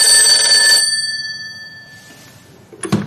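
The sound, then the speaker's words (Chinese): A telephone bell rings for an incoming evening call: one bright metallic ring with sustained tones that fade out slowly, followed near the end by a brief, sharp burst. “晚上十点，顾秋妍准时给周乙打来电话，暗示他将和老魏开始行动”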